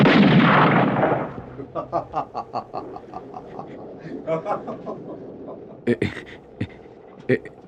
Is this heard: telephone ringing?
no